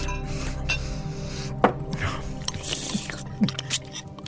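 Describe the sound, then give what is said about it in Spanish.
Men bite into carnitas tacos, giving a few moist, crunchy bites and chewing noises over a steady humming tone in the background. “Y sin mediar más palabra, los hombres hundieron sus dientes en la exquisita comida que les ofrecían.”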